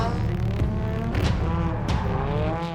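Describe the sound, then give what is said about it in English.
A car engine revving hard under heavy throttle during a competition qualifying run: a loud, sustained roar whose pitch wavers up and down throughout. “She's on the throttle very early.”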